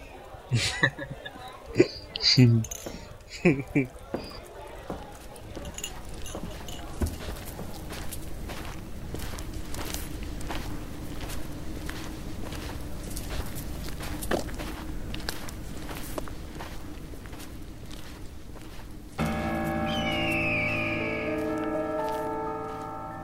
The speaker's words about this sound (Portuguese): Seus pés levantam poeira, enquanto vocês caminham pela estrada.